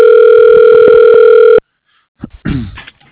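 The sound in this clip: A steady telephone tone on a business phone line after dialing an extension, a loud unbroken hum lasting about a second and a half that cuts off abruptly, followed by silence and a few brief faint noises.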